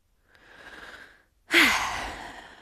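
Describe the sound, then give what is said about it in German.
Deep breathing during a slow breathing exercise: a soft, airy inhale, a short pause, then a louder, breathy exhale that fades out, with no talking. “Und tief ein- und ausatmen.”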